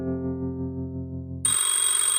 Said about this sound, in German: Gegen 10 klingelte das Telefon.